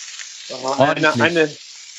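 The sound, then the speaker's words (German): Chicken breasts sizzle in a large frying pan, cooked for a salad, making a steady bright hiss throughout; a voice rises briefly over the frying in the middle. “Tu sie rein in die Pfanne. In eine, in welche? Kleine oder große? Große. Oh, da brutzelt's.”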